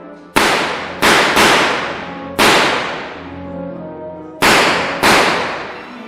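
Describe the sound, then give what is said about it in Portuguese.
Six loud bangs from a noisy gun, each a sharp crack trailing into a long ringing decay. The shots come irregularly, with a close pair near the start and another pair near the end. “uma máquina de escrever, uma arma bem ruidosa.”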